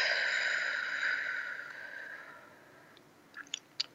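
A slow breath, in through the nose and out through the mouth, forms one long, soft rush of air that fades over about three seconds, followed by a few faint, brief clicks.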